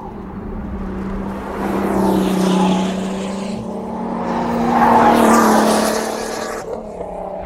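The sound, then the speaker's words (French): Race car tyres squealing through a long left-hand curve, blended with a droning engine. The steady tonal whine swells louder twice and fades between the swells, running alone with no voices. “Stridence des pneus au passage d'une grande courbe à gauche.”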